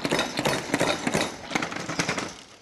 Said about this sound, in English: I absolutely swear by is a salad spinner. And basically, it's a little bowl like that with a spinner, with a basket here like that, and you just spin them like that.